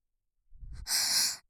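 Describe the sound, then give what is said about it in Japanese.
An unwell older brother, apparently down with a cold, takes a single heavy, laboured breath: a low rough onset, then a strong breathy rush that stops abruptly into silence. “お兄様、なんだかお顔の色がすぐれないような、呼吸も苦しそう。”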